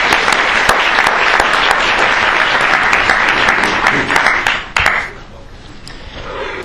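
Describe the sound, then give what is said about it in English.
Audience applause welcoming a lecturer: a loud, dense burst of clapping that holds steady for several seconds, then falls away to scattered claps and quiet. “So please join me in welcoming Dr. Longo this evening.”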